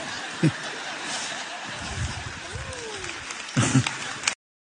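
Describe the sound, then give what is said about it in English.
Audience applause during a church sermon comes in scattered clapping, with a few brief louder bursts near the start and toward the end, and a voice is heard between them. “now he does get some applause. So now I don't know if they're applauding because they're uncomfortable.”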